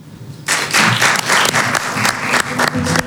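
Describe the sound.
Loud, dense audience applause welcoming a literature-loving guest, swelling in after a quieter opening moment and continuing as sustained, steady clapping to the end.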